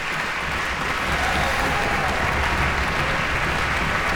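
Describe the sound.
Audience applause for an orchestra's bassoon section as the principal bassoonist stands, a dense, steady wash of clapping that stays evenly loud throughout.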